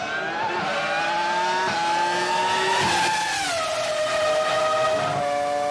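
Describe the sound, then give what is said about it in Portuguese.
Toyota V10 engine of a Jordan EJ15 Formula One car, 2005 season, screaming in a loud, sustained high-pitched whine whose pitch climbs steadily, dips briefly as revs drop, then holds steady, with no voices. “E agora vamos ouvir o som do V10 Toyota do Jordan EJ15”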